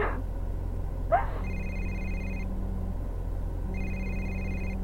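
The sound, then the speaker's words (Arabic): A telephone ringing with an incoming call: two electronic ring bursts, each about a second long, separated by a pause, over a steady low hum, with a short rustle before the first ring. “اسلام اتصل اسلام اتصل آه، آه، هذا اسلام قاعد يتصل”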